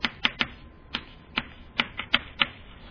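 A diagram being drawn by hand, heard as many sharp, quick clicks and scratchy strokes in an uneven rhythm, fairly faint.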